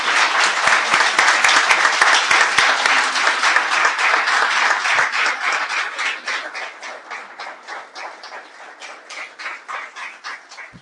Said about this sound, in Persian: امروزی که از پهلوان های ما آقای رضا ربیعی درخواست میکنیم تشریف بیارن. آقای رضا برش دست بزنیم.